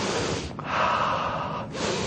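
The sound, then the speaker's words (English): A deep breath drawn in, the kind taken to step back and get some air during a heated argument: one loud, sharp, rushing inhale lasting about a second, heard alone with no talk. “if you're in the heat of an argument, say, excuse me, need to take some air. And then you take the air, okay?”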